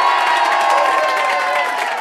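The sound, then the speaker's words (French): Wild cheering from a packed studio audience of about 200 at a comedy radio show: a loud, dense roar of shouts and whoops that stays continuous, with no one talking over it. “c'est comme ça, le grand studio humour avec un public en folie”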